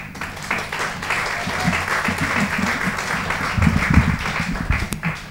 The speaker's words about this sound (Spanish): Pido un aplauso.